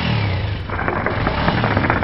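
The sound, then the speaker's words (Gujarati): A motorcycle stopped beside a roadside paan stall has its engine revved hard. The exhaust gives a loud, continuous rumble with a rapid pulsing throb that keeps going without a break. “પાનના ગલ્લા આગળ રોકાઈ ગયો છે, પણ હંમેશની જેમ motorcycle નું engine હજી પણ એને એટલા જ જોરથી ચલાવ્યું છે”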